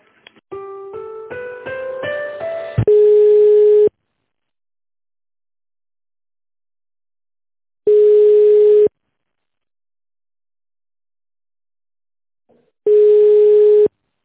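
Telephone line tones during a call transfer: a quick run of short stepped dialing beeps, then three steady one-second ringing tones separated by long silences.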